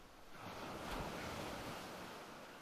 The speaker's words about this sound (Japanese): 波音が思い出させてくれる。心に笑顔を流し込んでくれるよ。